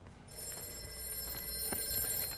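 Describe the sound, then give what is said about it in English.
A telephone bell rings in a bright, continuous jangle that starts after a brief moment of quiet and holds steady to the end. “Oh, let's see who that is on the phone.”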